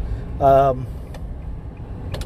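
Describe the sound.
A car driving on a road in Pittsburg, Kansas, a low, steady road rumble with a short voiced tone near the start and a few faint ticks.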